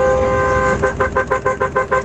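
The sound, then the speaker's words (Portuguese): Car horns honking in the street before dawn: a long, steady, loud toot gives way to a rapid, rhythmic series of short honking bursts. “Ó, 4h34 da manhã, o povo buzinando.”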